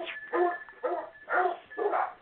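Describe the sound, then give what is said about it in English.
A dog barks in four loud, even bursts spaced about half a second apart. The barks carry a whiny, tonal edge, and no other sound competes with them. “Excuse my dog.”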